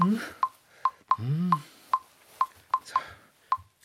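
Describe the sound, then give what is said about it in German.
Keypad beeps from dialing a mobile phone number: a quick run of short, bright, even-pitched tones tapped out one after another, about ten in all, standing out clearly against a quiet background. “Ich ruf gleich mal an.”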